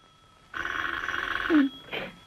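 A telephone rings in a comedy sketch with a warbling, rapidly pulsing electronic tone. It sounds as one sustained ring of about a second, then stops.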